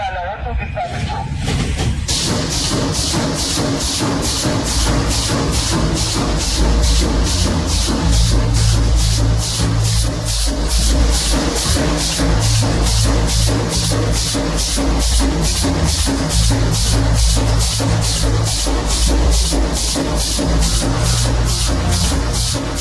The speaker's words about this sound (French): ce que vous entendez, c'est une fabrique de barbelés.